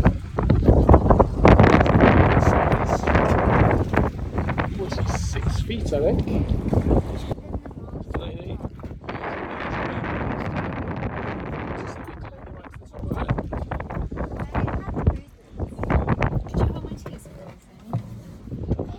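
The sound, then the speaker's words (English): Wind blows across a sailing boat, a loud, continuous rush with heavy buffeting that swells and eases in gusts, while a voice talks over it at times. “Just to make sure you can hear me, because it is a little bit windy, but it's a lovely day.”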